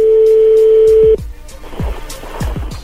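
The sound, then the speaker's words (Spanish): A telephone number being dialed: a steady dial tone cuts off after about a second, then a run of short clicks and tones follows as the keys are pressed. Fairly loud, with no talk. “Márcale otra vez.”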